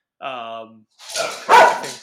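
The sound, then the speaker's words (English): A female dog barking: a short tonal whine comes first, followed by two rough, noisy barks that grow louder. “my dog's got a bark in her throat.”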